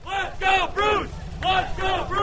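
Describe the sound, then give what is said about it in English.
A crowd at a Republican candidate's campaign rally for governor shouts wildly in loud, rhythmic bursts of many voices, a short repeated chant rising and breaking off several times. “But Bruce Rauner did it another way. He zoomed up on his Harley, and the crowd went wild.”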